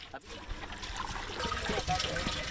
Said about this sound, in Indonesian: tinggal masukin airnya ke jeriken-jeriken yang tadi telah dibawa